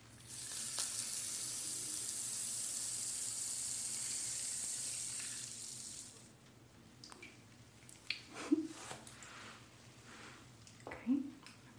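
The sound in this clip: Cherry-flavoured sculpting foam is squished and shaped by hand. A quiet, hissing fizz for the first half gives way to faint crackles and a few soft squishy pops.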